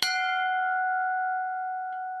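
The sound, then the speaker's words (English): A bell beside a lake quay, used to summon a boat to shore, is struck once and rings with a clear, steady tone that sustains and slowly fades across the whole clip, with no voices. “There's a bell here beside the quay, which may be a way of summoning the boat to the shore for collection.”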